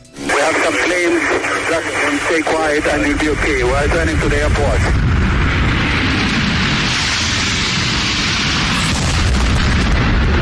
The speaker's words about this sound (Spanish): Fue esta la primera detonación, el primer avión que impacta una de las Torres Gemelas.